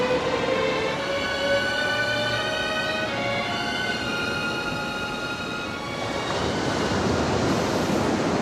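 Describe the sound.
Ocean surf breaks over sharp rocky reefs at a beach, a continuous roaring wash of water that holds steady and swells slightly near the end, with no voices.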